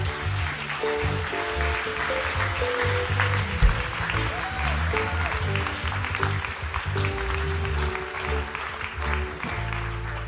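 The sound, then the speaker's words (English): An audience applauds to welcome a speaker onto the stage. The clapping is dense and continuous, stays level for about ten seconds and does not fade. “come on, put your hands together”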